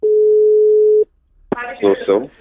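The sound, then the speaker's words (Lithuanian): A telephone tone sounds on a call placed to a theatre director: one steady, clear, mid-pitched tone held for about a second, then cut off. After a short silence, a man's voice answers and begins speaking. “Ramūnas Kaubrys, su juo ir susisiekėme telefonu.”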